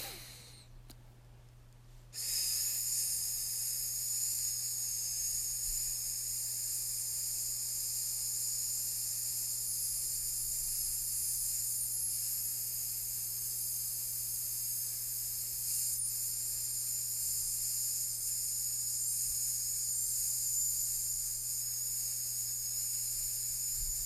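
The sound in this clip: A person makes a long, steady hissing "sss" sound on a single held breath during an abdominal breathing exercise. After a short, quieter lead-in, the hiss stays loud and even for about twenty seconds over a faint low hum.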